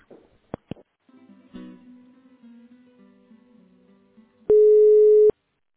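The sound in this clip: A telephone line tone while a call is put through to a supply department: one loud, steady tone of about a second, after a few clicks and a faint low hum.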